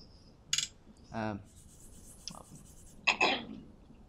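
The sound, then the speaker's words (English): Writing during a mathematics lecture, a few quiet, short scratchy strokes separated by pauses, one slightly longer rasping stroke, over near silence. “Maybe I should write it more explicitly.”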